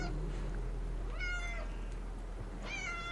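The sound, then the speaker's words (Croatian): Cats yowling on a cold winter night in southern Andalusia: two drawn-out, wavering harmonic cries, the second rising up near the end, over a steady low hum. “osluškujem mačke koje zvuče kao da se kolju.”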